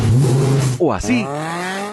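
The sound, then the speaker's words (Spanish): A car engine revs through a sports exhaust in one short burst that sweeps up and falls back. A brief spoken phrase comes just before it. “Y sí, suena así porque lo llevó a Escape San Francisco. Escape San Francisco. Escapes originales y deportivos, múltiples deportivos y colitas cromada.”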